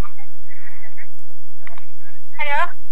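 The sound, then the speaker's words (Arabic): An incoming telephone call connecting during a live medical question-and-answer call-in: a few short electronic tones and faint line noise, then a brief voice as the caller comes on. “نعم، معنا اتصال. ألو، مرحبا.”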